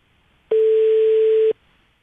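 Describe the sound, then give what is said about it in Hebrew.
A telephone ringback tone while calling someone: a single steady beep at one pitch that lasts about a second, with quiet before and after. “ואנחנו הולכים לדבר איתה עכשיו בטלפון. בואו נתקשר אליה.”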